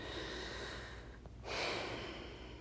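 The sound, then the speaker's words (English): Deep breaths of slow, airy flow: a soft steady breath, a brief pause, then a stronger, brighter rush of air. No voices are heard. “Let's take another couple deep breaths and say goodbye for now.”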